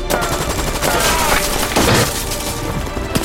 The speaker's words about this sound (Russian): Лютиков строчит по немцам из пулемета.